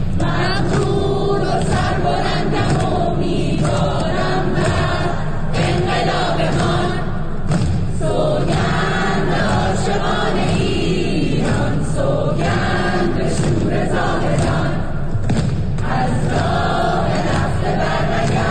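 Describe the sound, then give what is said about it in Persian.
Textile faculty students at Amirkabir University of Technology in Tehran sing an anthem together, a loud, continuous chorus of many voices in unison. “دانشجویان دانشکده نساجی دانشگاه صنعتی امیرکبیر تهران هم برای همکلاسی‌های دربندشان دست جمعی سرود خواندند که در شبکه‌های اجتماعی منتشر شده است.”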